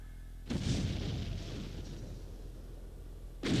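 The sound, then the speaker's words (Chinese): Machine-gun strafing fire into crowded prison cells in a staged drama, heard as a sudden heavy burst of low, rumbling fire that holds steady for about three seconds before easing, then a second burst breaks in just before the end. “把所有人集中在两个牢房里，加上机枪，扫射。”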